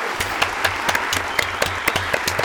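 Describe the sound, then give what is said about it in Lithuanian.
A few people applaud in a radio studio. Distinct individual claps land in a quick, fairly regular rhythm over a softer layer of steady clapping. “Mes irgi studijai plojam.”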